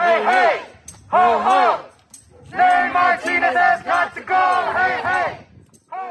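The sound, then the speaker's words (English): Protesters in Los Angeles chant in unison during a political scandal, shouting loud rhythmic phrases in several strong bursts separated by short pauses, the massed voices rising and falling together. “When people heard that private conversation, the city erupted into a frenzy of protests.”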